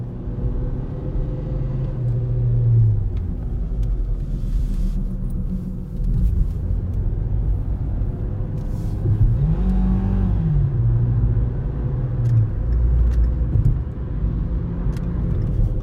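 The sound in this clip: Car engine drones in a racing video game during a race against a Dodge, a continuous low rumble whose pitch climbs and then falls once midway.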